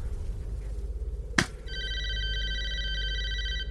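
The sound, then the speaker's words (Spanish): Electronic ringing of an incoming call on an office phone, heard through a headset turned to full volume. A sharp click comes first, then a steady, moderately faint ringing tone continues over a low hum. “Después de unos 10 minutos escuché que entraba una llamada, pero no se reflejaba en la pantalla.”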